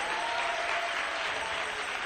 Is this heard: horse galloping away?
no